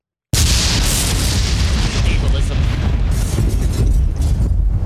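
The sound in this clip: A bomb explosion sound effect: a sudden loud blast that breaks into a sustained, heavy rumbling roar for several seconds without fading much.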